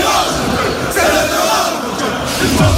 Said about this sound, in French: C'est ça l'ambiance, la sono que vous entendez derrière et le public qui est en train d'arriver ici sous nos yeux au parc.